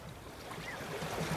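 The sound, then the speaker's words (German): Soft, steady water wash as a ship glides through a gently rippling sea off the Egyptian Mediterranean coast. The sound is faint and continuous, with no talk. “Langsam gleitet ein Schiff durch das sich sanft kräuselnde Meer.”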